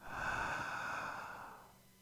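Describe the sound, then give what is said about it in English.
A deep breath drawn in on cue during a guided breathing exercise: one long, airy inhale of about two seconds that slowly fades, with no talking. “take the deepest breath you can. Hold it and then exhale gratitude, all right? One, two, three. Inhale.”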